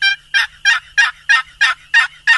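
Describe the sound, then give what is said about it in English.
Eight evenly spaced wild turkey hen yelps made on a hand-worked turkey call. Each is a loud, raspy, high note, repeated in a steady rhythm with no other sound. “That's the yelp of the wild turkey hen. It's yelping like the hen to the gobbler.”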